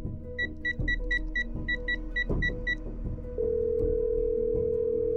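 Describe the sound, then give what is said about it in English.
A telephone call placed in a horror audio drama: a quick run of about ten short dialing beeps over a low rumble, then a steady continuous tone. “Let me give Wifey a ring.”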